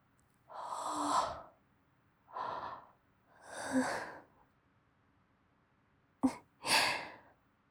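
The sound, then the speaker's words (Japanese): A drowsy young woman yawns quietly. Several soft, breathy exhalations of varying length are separated by silent gaps, and the last is preceded by a brief sharp intake. “あくび映っちゃいました。”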